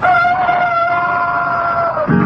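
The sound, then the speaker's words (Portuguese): A rooster crows in an old Eucalol toothpaste commercial: one long, sustained call that dips slightly at the end, followed by a short low sound. “A gente pensa que ao romper do dia, o galo canta pra saudar o sol.”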